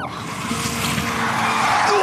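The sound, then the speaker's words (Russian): A car skids on a straight bridge, its tires hissing and squealing in one steady, continuous slide that grows slightly louder over about two seconds. “Прости. Занесло немного. На прямом мосту?”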